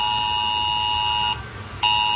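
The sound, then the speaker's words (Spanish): Emergency red alert tone sounding on mobile phones during a heavy-rain red alert: a loud, high, harsh steady tone that cuts out briefly partway through, then resumes at full strength. “la comarca del campo de Cartagena y Mazarrón, donde se ha decretado durante unas horas alerta roja, y los mensajes de esa alerta han sonado en los móviles de los vecinos.”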